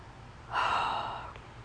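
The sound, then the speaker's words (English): A single sniffle from someone who is sick with a cold: a quick breathy nasal intake that swells and then tapers off over about a second, faint and alone against a quiet background. “Sorry if you could hear me sniffle throughout this.”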